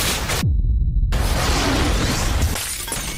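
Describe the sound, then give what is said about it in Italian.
Explosions with shattering and crackling debris in a film disaster scene: a dense, loud roar that cuts briefly to a deep rumble with a falling whoosh, then returns as sustained crackling noise. “avete sentito suoni, crepitii, esplosioni in un giorno normale, che doveva essere normale”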